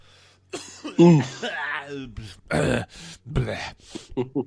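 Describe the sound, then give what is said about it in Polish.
A person clears their throat and coughs in a few rough, voiced bursts, loud against a quiet background. “przepraszam, muszę odkaszlnąć.”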